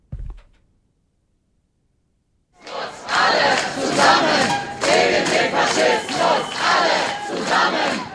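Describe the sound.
A low thump is followed by two seconds of silence. Then a crowd at an AfD campaign kickoff and counter-protest outside the Ulrichskirche bursts into loud, rhythmic chanting and shouting that swells in repeated pulses.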